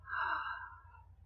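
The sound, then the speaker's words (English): A single deep breath drawn in and let out, soft and faint, heard alone. “Take a deep breath. Let it in. And out.”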